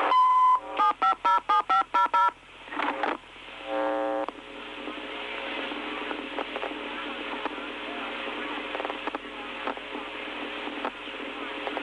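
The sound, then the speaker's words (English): Telephone keypad tones as a caller enters a phone number on an automated police department line: a quick run of short, evenly spaced beeps, then a low steady hum with faint patter. “Please enter your telephone number.”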